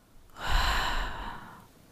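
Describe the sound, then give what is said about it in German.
One deep, slow breath swells and fades over about a second and a half, a soft airy rush that is loudest early and then tapers off, with no talk. “Atme noch einmal tief ein und aus.”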